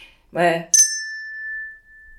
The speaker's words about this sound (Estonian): Sest mul on nüüd teine kell, mille ma võtan kätte.